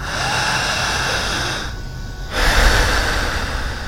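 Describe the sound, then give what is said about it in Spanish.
Deep breathing through the mouth only during a clinical hypnosis demonstration: long, loud, airy rushes of breath broken by one short pause, then a stronger breath. “respira muy profundo con la boca. ¿Qué más? Solamente con la boca.”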